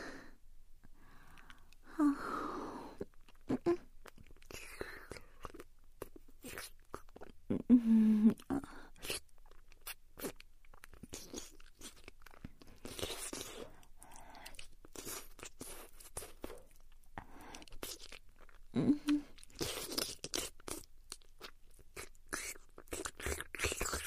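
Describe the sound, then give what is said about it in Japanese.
Whispered Japanese ASMR roleplay full of kissing sounds, many soft, wet lip smacks repeated in irregular clusters, faint and close, with breathy sighs between them. “ご褒美にキスしてあげますね。いきますよ。”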